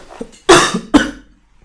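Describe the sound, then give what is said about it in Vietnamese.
Two harsh, loud coughs in quick succession from a person with a persistent cough, each a short burst with a brief ragged tail, followed by quiet. “Ho quá. Buồn ho quá.”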